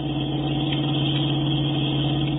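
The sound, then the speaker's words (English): Car engine drone from a radio drama sound effect of a car driving off the road toward a tree, a steady, loud, continuous hum that holds an even level without breaks or voices. “Jim, she's driving off the road. She's going to hit that tree.”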